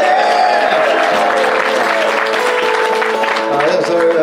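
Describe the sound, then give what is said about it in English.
Audience applause at a comedy show, welcoming a performer of topical songs. Continuous, lively clapping lasts about four seconds, with faint tonal sounds beneath it. “Give him a round.”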